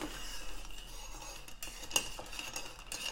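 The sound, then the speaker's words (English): A spoon stirs a cocktail made with dry vermouth in a glass, giving faint, irregular clinks and soft scraping against the glass, with no talking. “And I'm going to give that a stir.”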